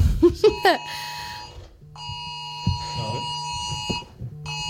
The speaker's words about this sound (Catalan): Ha saltat una alarma.